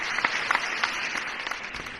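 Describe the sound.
Faint applause in a hall after a speech by José María Aznar, a low continuous patter of many hands with a few sharper individual claps standing out.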